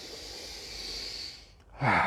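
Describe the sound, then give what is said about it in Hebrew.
A long, airy intake of breath through the nose as people breathe in deeply together. The sustained rush lasts over a second, then fades, and a short voiced sound follows at the very end. “אני אבקש מכם קודם כל לנשום איתי יפה,”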